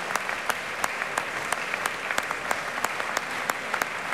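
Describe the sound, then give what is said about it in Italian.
A concert audience applauds an orchestra with warm, sustained clapping. Sharp, evenly spaced louder claps stand out above the dense wash of hands. “Come si sente, c'è un applauso anche per lui, molto caloroso, anche per l'orchestra che è tutta schierata.”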